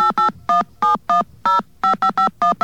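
Touch-tone telephone dialing to route a call through AT&T: a rapid, uneven series of loud, clean dual-pitched beeps, each short and separated by brief gaps, with no voices.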